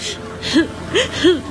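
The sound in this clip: A young child whimpering and crying in short sobs, with three separate rising-then-falling wails spread across a low, quiet background.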